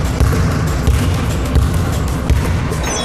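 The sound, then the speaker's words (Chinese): A basketball dribbled with the fingertips during a coaching drill. A few dull thumps recur through a thick, constant wash of noise. “好，这个说一下啊，刚才你的运球整体来说都很棒啊”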